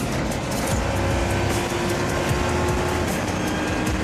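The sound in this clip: Loud, steady engine and road roar of a car driving fast on the Le Castellet race circuit, a dense unbroken drone with a faint constant tone running beneath it and no voices.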